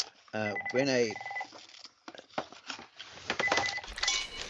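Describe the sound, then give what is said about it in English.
A telephone keeps ringing under a person's talk, its bright repeated electronic trill recurring in short bursts partly masked by the voice. “music's died, but the phone's still going.”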